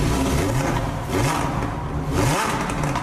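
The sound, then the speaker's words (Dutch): A Lamborghini Huracán STO's naturally aspirated V10 engine revs in a loud, continuous roar that swells and surges a few times, with climbing pitch during each push. “Geen V8 of V10 meer, zoals in de Huracan STO. Luister maar even.”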